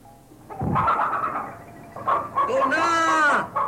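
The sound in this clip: Hens and chickens squawk and cluck as a person chases them to grab a hen, with scattered agitated calls and one loud, drawn-out squawk near the end.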